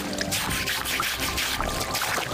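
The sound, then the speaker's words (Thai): Tap water runs steadily into a basin while fish are washed, making a continuous, moderately quiet splashing and trickling stream with small irregular splashes. “ก็จะโยนไปอีกกระมังนึงซึ่งก็จะเปิดน้ำไหลไว้ตลอดเวลานะครับ”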